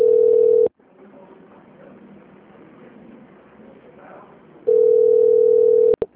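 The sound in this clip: Telephone tones during a call transfer: a steady, unbroken tone, then a stretch of faint line hiss, then the same tone again, ending in a couple of quick clicks.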